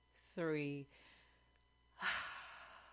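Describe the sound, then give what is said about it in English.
A deep breath: a short voiced, sigh-like exhale, then after a pause a longer, airy rush of breath, both fairly faint. “So just take a breath with me.”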